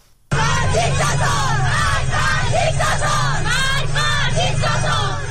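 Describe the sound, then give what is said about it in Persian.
Schoolgirls who have removed their hijabs shout protest slogans together in a loud, continuous chorus of high voices, bursting in abruptly after a moment of near quiet and holding steady throughout. “صدای دختران دانش آموزی که با برداشتن حجاب در مدرسه و خیابان شعار می دهند.”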